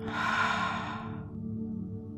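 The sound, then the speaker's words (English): Deep breathing, drawn in through the nose and let out through the mouth: a soft airy rush lasting about a second that fades out, over a steady low humming tone. “take a deep breath in through your nose, then slowly exhale through your mouth. Breathe in and out.”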